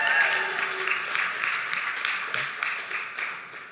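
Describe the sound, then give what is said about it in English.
An audience gives a round of applause for Jesus, a dense clapping that starts loud and gradually fades toward the end. “come on, can we actually give him a round of applause?”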